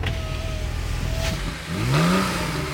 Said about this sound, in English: A little far for my 10-speed, but child's play for this. The Porsche 911 Carrera.